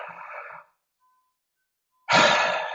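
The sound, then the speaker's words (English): A deep breath in and a long exhale during a guided meditation: a soft, airy inhale that fades into silence, then a louder, fuller exhale that slowly trails off. “at the end of the exhale, rest there for a few seconds. Maybe take a deep breath in.”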